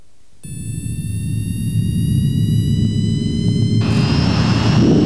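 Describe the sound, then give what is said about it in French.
Jet airliner taking off for Pointe-à-Pitre: a steady high engine whine over a deep roar that swells and grows louder throughout, with no voices. “Les passagers à destination de Pointe-à-Pitre sont priés d'attacher leurs ceintures. Décollage immédiat.”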